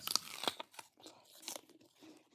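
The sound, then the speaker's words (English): Crunchy chewing from a person eating something crisp, with a few sharp, bright crunches at the start followed by softer, irregular munching, all faint and with no talking. “Are you eating something? Can you hear that? Yes,”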